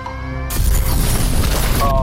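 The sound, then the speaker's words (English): A bomb explosion sound effect goes off in a radio quiz: a brief tonal cue gives way to a loud, broad, rumbling blast that sustains for about a second and a half. “There goes the bomb.”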